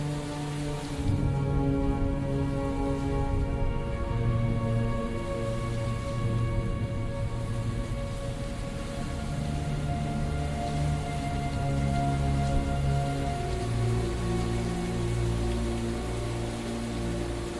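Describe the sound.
Steady rain sweeping over the gateways of an abbey, falling as a dense, even hiss that never lets up. A soft, sustained musical drone runs beneath it throughout.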